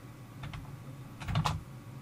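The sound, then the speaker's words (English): Computer keyboard keys pressed to enter the Control plus backslash shortcut that closes the Window-Eyes screen reader. A couple of soft, faint clicks are followed by a quicker cluster of clicks. “So let me shut down WindowEyes. Control backslash.”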